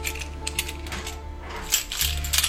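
A set of three heavy metal keys for a front door, basement bedroom and outside toilet is put down, making many quick, bright metallic clinks and jingles over a low, steady hum.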